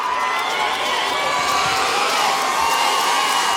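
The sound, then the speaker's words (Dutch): A festival crowd at Lowlands cheers during a live concert, producing a continuous, dense roar of voices and shouts that stays loud and even for the whole stretch. “Het publiek scandeert zijn naam al.”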